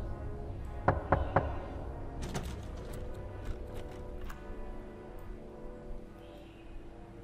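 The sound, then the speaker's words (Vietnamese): Knocking from inside a coffin: three sharp, loud knocks close together near the start, then scattered fainter taps and knocks over a low, steady background. “Vừa dứt lời, ở trong quan tài lại chuyển đến tiếng gõ, lần này to và dài hơn.”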